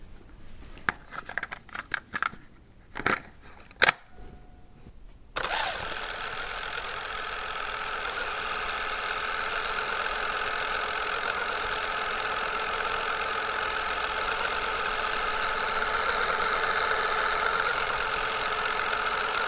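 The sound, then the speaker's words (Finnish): Compact cassette tape rewinding in a deck: a few sharp mechanical clicks and clunks at the start, then a loud, steady whirring hum that runs evenly to the end. “Ja me voitaisiin oikeastaan verestää muistoja ja kuunnella ihan aitoa C-kasetin kelausta.”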